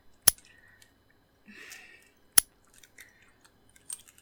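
Locking clicks, two sharp, crisp snaps a couple of seconds apart, with faint rustling and soft small clicks in between.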